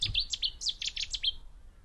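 A Cetti's warbler gives its loud, explosive call from bushes beside a gravel path on a May walk: a rapid burst of many sharp, high chirping notes that stops abruptly.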